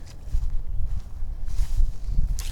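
Footsteps push through a low patch of small trees, shrubbery and sumac, a continuous run of crunching, rustling steps with brushy scrapes as leaves and stems are pushed aside, fairly loud with no talk.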